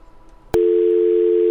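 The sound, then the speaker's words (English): Telephone dial tone after a radio caller's line dropped: a faint murmur, then a sharp click and a loud, steady, unbroken tone that holds to the end. “Oh, looks like we lost another caller. If you just tried to give us a call, try us again.”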